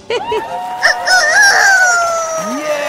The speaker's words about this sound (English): rooster.